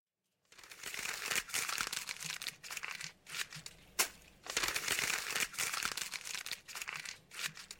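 Misprinted photocopy sheets are crumpled by hand, giving a dense, crackling crinkle in repeated bursts over several seconds, with no voices.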